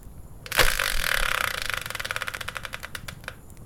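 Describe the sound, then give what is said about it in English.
A Wheel of Fortune style prize spinner turning: a burst of rapid ratcheting clicks that gradually slow and spread out into separate ticks as the wheel winds down. “So let's bring in the Wheel of Fortune style spinner, give it a turn, and find out what today's subject will be.”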